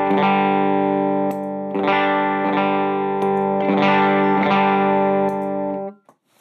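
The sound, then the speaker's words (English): Electric guitar through a Creation Audio Mark 423 transparent volume boost pedal pushing the amp: rich, sustained chords restruck several times, ringing loud and full before the sound cuts off abruptly near the end. “I love the Mark 423 from Creation Audio. It's just is so transparent, you know. I can kick it up a little bit there.”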